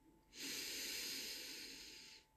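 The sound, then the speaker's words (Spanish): A slow inhale through the nose during a guided breathing exercise, heard as a soft, steady hiss lasting nearly two seconds that fades in and out smoothly. “te voy a pedir que tomes contacto con tu respiración, inhalando y exhalando en la medida que vamos a ir contando. Inhala por la nariz.”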